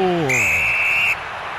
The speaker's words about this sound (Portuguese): Quando apita pela última vez no jogo, o árbitro.